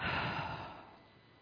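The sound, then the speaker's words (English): A single long breath, loud and airy at first, then gradually fading away over about a second and a half. “Inhale and exhale.”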